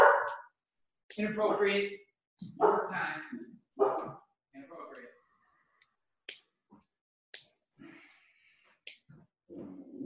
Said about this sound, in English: Of course my dog's going to go bananas like at the last 2 minutes before.